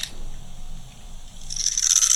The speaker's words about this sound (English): it's like she's holding a purple bar of soap in her hand and she's cut it like 1,000 ways, diagonal and horizontal. And now she's cutting it with one of those blades. Listen to this, guys.